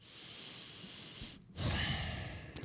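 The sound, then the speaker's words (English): A deep breath drawn alone, with no words spoken: a broad, breathy rush that swells after a short pause, then tapers off. “See, I had to take a deep breath before that one.”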